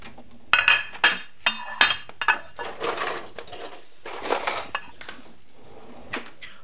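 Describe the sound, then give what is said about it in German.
Plates and cutlery clinking and clattering as plates are taken out for serving omelette in a kitchen: many sharp ceramic knocks and metallic chinks in an irregular sequence, moderately loud, with no talk. “Ich würde sagen, wir holen schon mal die Teller raus.”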